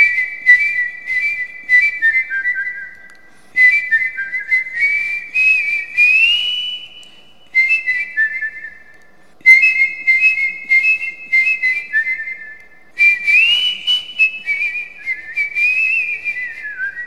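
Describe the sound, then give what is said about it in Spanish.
Human whistling, the mouth acting as a natural wind instrument, carries a clear melodic tune with sliding pitches across about five phrases separated by short breaths, bright and alone with no other sounds. “Escucha un aerófono natural, el silbido.”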